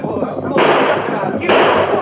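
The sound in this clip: Gunfire from a rider fleeing on horseback in a Western chase: two loud, sharp bursts about a second apart, each followed by a sustained noisy tail over a hissy background.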